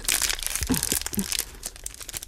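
Chocolate being unwrapped to eat a piece: a wrapper crinkles and crackles in many quick, dense rustles, with a few sharper crunches mixed in and no talk.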